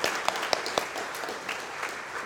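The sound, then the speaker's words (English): Church audience applauding to welcome new members, a soft, steady bed of many hands clapping with a few sharper, louder claps standing out near the start. “And let's give our newest members a round of applause and welcome.”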